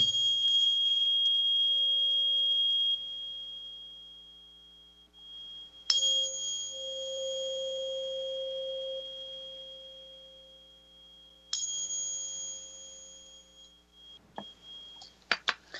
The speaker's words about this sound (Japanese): let me hit this 528 Hz, okay? 528 Hz の音差をちょっと使わせていただきます。